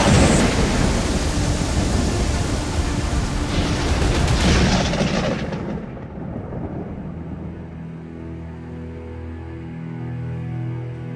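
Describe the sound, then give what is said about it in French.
A violent thunderstorm roars with loud, crashing thunder over heavy rain for several seconds, then eases into a softer, steady wash of rain with low, lingering rumbles beneath. “Cette affreuse tempête dure plus de 5 heures.”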